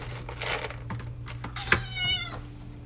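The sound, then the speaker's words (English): A small pet cat meows while being fed, giving a short, high, harmonic mew near the end, preceded by a brief click, over a steady low background hum. “Y'all, that's the cat. I'm feeding her.”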